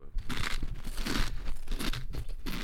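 Crunching as a person chews paprika crisps, a run of crisp, crackly bites and crumbling repeated at an uneven pace, loud and close, with brief pauses between crunches.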